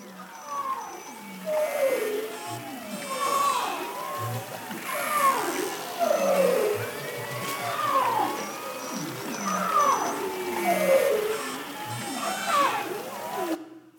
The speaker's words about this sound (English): Arctic marine mammals live in a rich and varied underwater soundscape. In the spring, it can be a cacophony of sound.